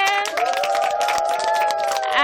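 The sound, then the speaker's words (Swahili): A church audience claps and ululates after a children's choir sings: loud, high, wavering trills ring out over a busy patter of hand claps, sustaining throughout and swelling again at the end. “Makofi kwa Yesu na vigelegele.”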